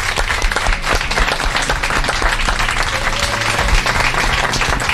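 A live audience applauds a surprise guest, a former vice president of Bolivia, arriving at a radio show's fourth-anniversary special. The clapping is loud and steady, with many hands and a light crowd murmur.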